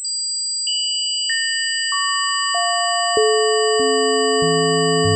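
A healing-frequency tone meant to calm the mind: steady, pure electronic tones pile up, with a new, lower pitch added roughly every half second. Together they build a loud, shrill, dissonant chord that never fades.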